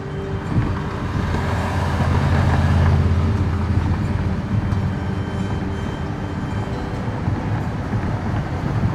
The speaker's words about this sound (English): So we've just been driving for 20 minutes or so.